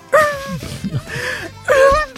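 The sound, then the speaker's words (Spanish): A person crying and wailing in loud, drawn-out tonal moans, three main wails rising out of softer sobbing and whimpering between them. “Pero ese que llora ahí, ¿quién No llora”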